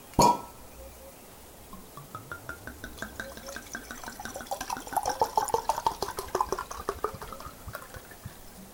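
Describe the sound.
Very old brandy is poured, opening with a sharp knock and then a long run of rapid liquid glugs and gurgles. The glugs grow louder and denser toward the middle and continue to the end.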